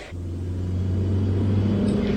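Steady low engine and road rumble from a rental car cruising on a highway, a continuous even drone that holds at a constant level throughout.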